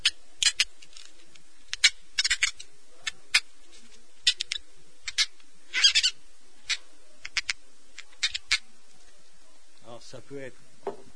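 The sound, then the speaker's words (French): Squeaking like mice from polystyrene rubbed on the wet glass of a bottle: many short, sharp, high squeaks in irregular bursts, with a brief voice near the end. “Donc un peu d'eau sur le verre de la bouteille, ouais. Un bout de polystyrène.”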